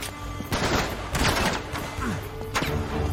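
Gunfire in a video game: a few loud, sharp bursts of shots break out over a constant dense background of game noise.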